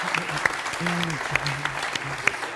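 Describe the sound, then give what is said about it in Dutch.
Applause from a theatre show audience for the media team, a short stretch of clapping with a few sharper claps standing out under people talking. “Dus, dus applaus voor de mediaafdeling.”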